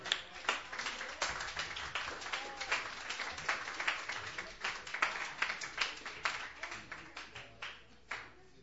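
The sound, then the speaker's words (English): Audience applause at an open mic as a singer-songwriter is welcomed to the stage: many overlapping hand claps in a steady, dense patter that thins out toward the end, with a few last isolated claps. “please put your hands together. Welcome Damien to the stage.”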